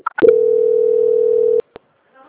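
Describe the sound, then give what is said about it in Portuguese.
A telephone call-transfer tone: a few brief blips, then a single steady mid-pitched tone holding for about a second and a half before cutting off abruptly, followed by one short click. “Só mais um minutinho que eu vou transferir a ligação agora para o controle de qualidade, tá bom? Transferência.”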